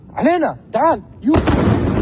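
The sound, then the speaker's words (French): A missile blast in a city centre at night: two short voiced exclamations come first, then a loud, broad roar bursts in and holds steady to the end. “On y voit un missile tomber quelque part en plein centre-ville.”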